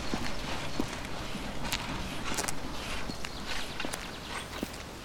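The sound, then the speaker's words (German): People walk along a street, their footsteps a steady run of soft, scattered taps over constant background hiss. “Wir laufen noch ein Stück weiter geradeaus bis zur Sauerbruchstraße.”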